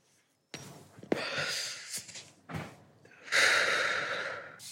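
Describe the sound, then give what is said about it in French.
A person smokes a cigarette, with a sharp click followed by a few breathy draws and puffs, then a long, airy exhale that fades out. “Donc je vais la fumer avec vous”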